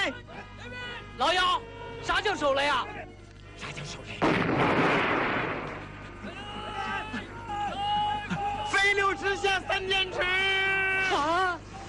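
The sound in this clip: A hand grenade explodes during a gunfight: one loud, rough blast lasting about two seconds, with shouting voices before and after it.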